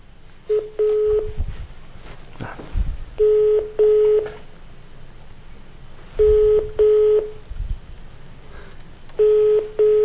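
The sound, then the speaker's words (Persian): Telephone keypad tones sound while a call is being placed, with short steady beeps arriving in tight groups of two or three, separated by pauses filled with a low rumbling hiss. “پیش شماره قوم البته فکر میکنم افتاده. بعد خب یک بار دیگه تماس بگیریم ببینیم که حالا ظاهرا اینو میزنیم”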